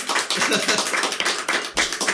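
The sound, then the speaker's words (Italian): A radio studio audience applauds the guests with brisk, uneven clapping in irregular surges that keep rising and dipping, loud throughout the short stretch. “Tutto che abbiamo gli ospiti, lasciamoli applaudire, dai.”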